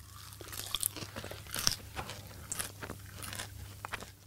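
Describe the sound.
Fresh parsley being chewed while the nose is held shut, a faint, steady run of many moist crunching and mashing sounds in an irregular rhythm, with no talking.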